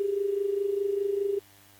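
A steady, single-pitched telephone tone from a call that will not connect drones for about a second and a half, then cuts off abruptly, leaving only a faint low hum.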